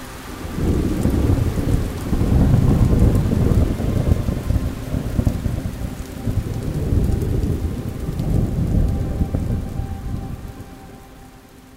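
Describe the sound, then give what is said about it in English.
Heavy rainfall at sunset with rolling thunder: a dense, constant hiss of rain on surfaces, with deep, low rumbles swelling loud twice and then fading back. “Rainfall at sunset.”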